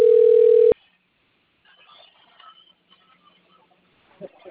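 A telephone dial tone sounds while a call is placed: a steady, pure tone lasting under a second that cuts off abruptly into near silence broken by faint small sounds.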